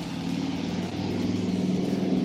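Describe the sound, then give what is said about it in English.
A car drives away, its engine giving a steady low rumble with a faint rhythmic pulse that holds level and swells slightly toward the end. “It sounds like Bo Bandy just drove away.”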